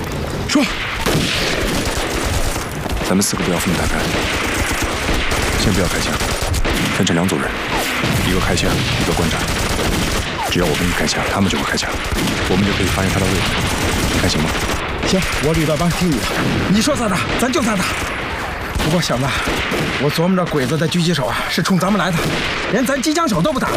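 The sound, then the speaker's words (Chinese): Heavy machine-gun fire from enemy Japanese troops in a wartime battle. Dense, rapid bursts of gunfire run loud and unbroken throughout, with voices mixed into the din. “鬼子动机枪火力太猛，我们得解决他。”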